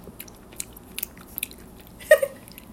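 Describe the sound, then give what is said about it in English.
Crunching of a Lifesaver hard candy: a few faint, scattered clicks, then one loud, sharp crunch followed by a brief crackling tail, heard alone with no talk. “We have lifesavers. Okay, a little ASMR.”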